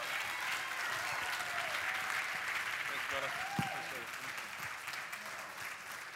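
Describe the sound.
A church audience applauding to welcome a guest pastor, a steady, dense wash of clapping that holds evenly throughout, with a few voices cheering within it.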